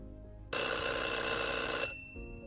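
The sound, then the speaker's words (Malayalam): A telephone ringing with an incoming call: one loud, bright, buzzy ring sustained for over a second, then tailing off into quiet. “Hello welcome to teacher ഇതാരാണ് വിളിക്കുന്നത്”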